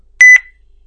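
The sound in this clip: A single short electronic beep sounds as a phone call ends. It is high-pitched and clear, starts sharply and fades quickly into silence.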